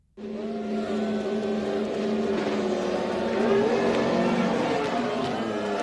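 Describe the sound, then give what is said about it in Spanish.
A Ferrari SF23 Formula One car drives on a circuit, producing a loud, sustained high-revving engine whine whose harmonic pitch shifts up and down over several seconds, with no voices. “Así suena el Ferrari.”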